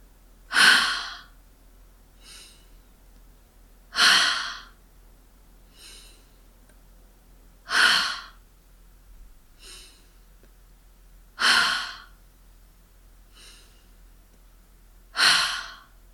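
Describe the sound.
Slow breathing in through the nose and then out, in a calm, even rhythm: five strong, airy breaths about four seconds apart, with fainter breaths between them.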